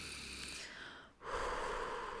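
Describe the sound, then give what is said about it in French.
A deep breath in, taken during a calm guided exercise before learning to tie shoelaces. It is a soft, faint, airy rush with a short dip near the middle, alone without talk. “Maintenant, assieds-toi confortablement, prends une profonde respiration”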